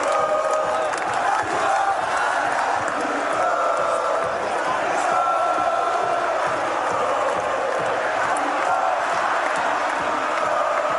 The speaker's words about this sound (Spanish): Impresionante el público albirrojo.